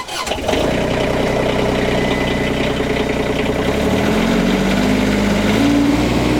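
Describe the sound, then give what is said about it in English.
A compact ECR25 diesel excavator engine cranks briefly and catches, then settles into a steady, loud rumbling idle with a droning tonal hum that steps higher partway through. “I'm at the diesel machine right now, the same size machine, ECR25. Diesel. I need to turn on the master switch. Crank.”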